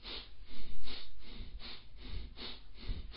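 Heavy, forceful breathing during a breathing exercise, a series of quick, strong breaths in a fairly steady rhythm, each one a short breathy rush of air, with no talking.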